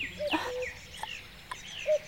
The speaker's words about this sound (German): Kuckuck! Kuckuck, ja, dich meine ich.